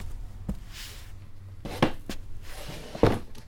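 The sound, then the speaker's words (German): Soft thuds and knocks as office folders are placed into a cupboard, a few separate quiet impacts spread out over low background noise. “Okay, dann mal los. Zuerst aufräumen. Diese Ordner sollen in den Schrank gestellt werden.”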